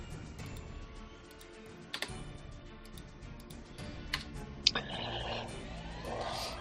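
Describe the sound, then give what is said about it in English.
Computer keyboard typing into a chat, a few faint, sparse key clicks over a quiet background with some sharper taps scattered through. “Add them to my inventory. Okay. I'm gonna write both of them into the chat here.”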